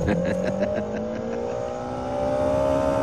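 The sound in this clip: A car being driven fast gives off a loud, steady droning engine whine whose pitch climbs slowly as it accelerates, with road rumble underneath.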